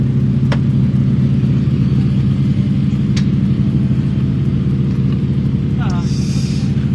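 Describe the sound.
Engine noise from a BMW rally car on a special stage, a loud, steady low drone and rumble that holds constant throughout without clear revving or breaks.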